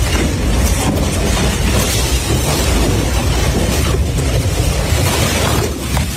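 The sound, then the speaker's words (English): Loud, continuous roaring rumble of a tornado blowing apart a house in a video game, a dense wall of wind noise with no pauses. “I guess there's going to be a house blowing jeepers creepers. Bro, there's a tornado outside right now.”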